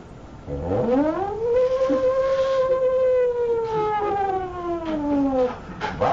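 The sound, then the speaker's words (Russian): An air raid siren sweeps up in pitch, then holds a loud, steady wail for several seconds before sliding back down near the end, sounding alone without voices. “Воздушная тревога. Надо в бомбоубежище сразу спускаться.”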